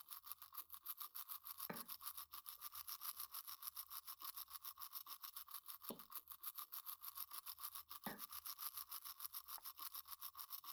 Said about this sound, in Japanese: 今度は、裏の方も磨いていこな。